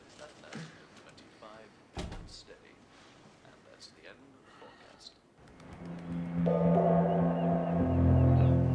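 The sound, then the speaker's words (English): A few sharp knocks on a wooden table, mixed in with a voice, then sustained music swells loudly and holds to the end. “George knocks on the table and makes a yapping gesture with his hand.”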